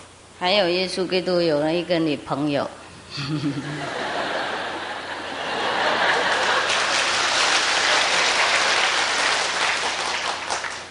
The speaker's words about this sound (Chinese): 你们为什么拍手呢？